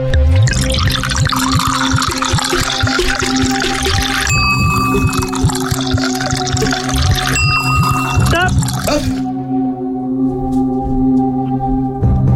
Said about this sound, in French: C'est parti, le jeu démarre, je commence à remplir cet immense verre.